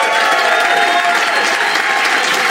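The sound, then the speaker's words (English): An audience gives loud, sustained applause to welcome comedian Mark Thomas to the stage. The dense clapping stays steady and unbroken from start to finish. “Will you please welcome the incredible Mark Thomas, ladies and gentlemen.”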